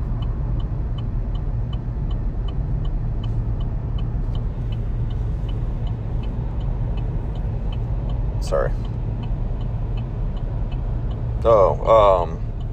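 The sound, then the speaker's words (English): Steady low rumble of a car being driven, heard from inside the cabin, a continuous even engine and road drone throughout. “Sorry, again, I'm driving and I'm trying to pay attention to what I'm doing.”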